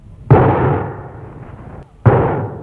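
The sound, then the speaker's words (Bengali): Two loud gunshots roughly 1.7 seconds apart. Each is a sharp bang followed by a long, decaying rumble. The second shot's tail is cut off at the end. “কি হলো? কে কারে গুলি করলো?”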